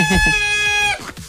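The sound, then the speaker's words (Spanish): A rooster crows once, a sustained, bright harmonic call lasting about a second that fades out, heard over a person talking. “Pero, el gallo Claudio. El gallo, eso digo yo, que ha venido.”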